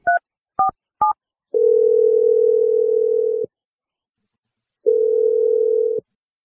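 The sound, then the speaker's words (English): Telephone keypad tones as an outgoing call is dialed: three short beeps, then two long steady tones separated by silence, the first about two seconds long and the second about one. “I'm going to dial Naomi right now, and hopefully she picks up. We'll see what she has to say. Here we go.”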